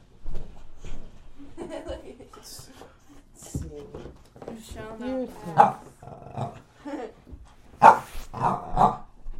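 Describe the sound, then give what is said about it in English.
A dog barks and growls while a person talks to it, with a few sharp bark bursts rising above the speech toward the end. “Quiet. What you barking for, huh? Because he wants my gum.”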